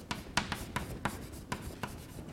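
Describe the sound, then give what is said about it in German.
Writing on a board during a physics lecture: a run of short, scratchy strokes in an uneven rhythm, each a brief rasp, with no talk over them. “Gut, also schreiben wir nochmal dazu.”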